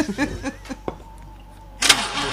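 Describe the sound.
A car engine starts after brief talk and a few soft clicks. It catches with a sudden loud roar that carries on to the end.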